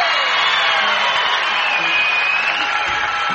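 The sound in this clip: Applause and cheering from a studio audience welcoming a guest star at a country music show, a dense, steady roar of clapping and crowd noise that holds at full loudness throughout.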